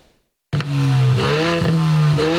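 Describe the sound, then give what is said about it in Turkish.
Loud revving of a car engine whose exhaust has no muffler: after a brief silence it bursts in and holds a rough, throaty low roar with a few uneven surges. “Önce egzozundan yüksek ses çıkan bir sürücü radara takıldı.”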